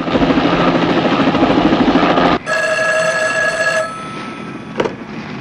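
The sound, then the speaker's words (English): A car phone rings with a bright, steady electronic trill lasting over a second. Before it, the loud rumble of a helicopter overhead cuts off abruptly. A low hum continues under the ring, followed by a brief click. “The car phone rings. Rena picks up the receiver.”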